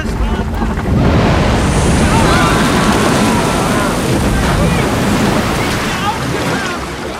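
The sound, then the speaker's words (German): Water surging and waves churning around a raft: a loud, continuous rushing roar of turbulent water that holds steady throughout and eases slightly at the end. “Bereits zeigten weitreichende Bewegungen der Oberfläche des Wassers, dass die tieferen Schichten beunruhigt war.”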